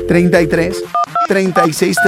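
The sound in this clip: Telephone keypad dialing tones, a few short steady two-pitch beeps in the middle and near the end, set between a loud voice with musical backing.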